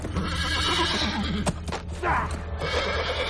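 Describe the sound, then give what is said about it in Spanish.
A galloping horse ridden by a Cossack across an open field, heard as a loud whinny over hoofbeats that keep going throughout. “De repente aparece el cosaco al galope.”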